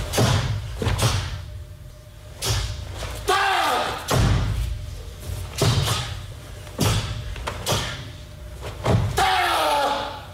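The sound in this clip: Sharp snaps and thuds of karate kata strikes, the suit cracking with each fast punch or kick; many loud bursts come in an irregular rhythm, with short pauses between them.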